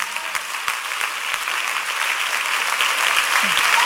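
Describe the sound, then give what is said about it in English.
A church audience clapping during worship, dense and sustained applause that runs without a break and swells a little louder toward the end. “clap for Jesus”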